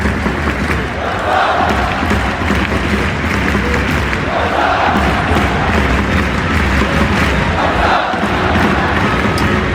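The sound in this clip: A football stadium crowd at Barcelona's Camp Nou makes a loud, continuous roar. Swells of rhythmic chanting rise out of the din a few times and recur at fairly regular intervals.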